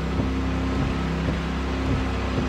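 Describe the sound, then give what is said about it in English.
A race car in a video game leaves the pits in the rain. Its engine holds a steady, even drone, with faint ticking pulses at regular intervals. “Your pit crew replaces your worn tires with fresh rubber. Your car leaves the pits with the rain still falling.”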